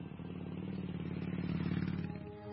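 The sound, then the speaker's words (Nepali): A motorcycle rides off, its low pulsing engine note faint and steady for about two seconds before it drops away. “जाम हिँड, बरु मेरो बाइकमा गएर आइहालम।”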